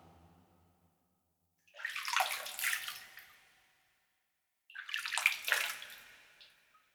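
Holy water poured to wash an object during a blessing rite: two separate pours of splashing, streaming water, each lasting under two seconds, with a quiet pause between them.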